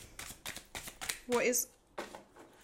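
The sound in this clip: Tarot cards shuffled and drawn, with a short, loud papery riffle near the middle amid soft voice sounds and light handling noises.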